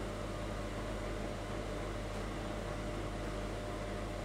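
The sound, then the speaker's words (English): Steady whirring of a fairly new oven's fan left running with the heat off while cakes cool inside; a faint, constant hum with a low tonal drone and airy hiss, unchanging throughout and without any talk. “So I turn off the heat, but I leave the fan going and I let them cool down in there for a little bit.”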